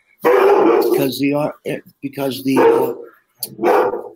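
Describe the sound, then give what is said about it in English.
A big doodle dog barks and whimpers, unwell but excited that someone has come home, with several drawn-out, voice-like yelps and whines in quick succession, loud and close together. “Come here, Cody. He's happy he heard somebody come home. It's my big doodle. He's not feeling too good. I got four big ass dogs.”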